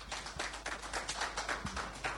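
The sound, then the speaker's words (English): An audience at a corporate event introducing bank executives applauds with sparse, distinct claps in a loose rhythm, heard quietly and without voices. “Please let's be kind to him with the applause.”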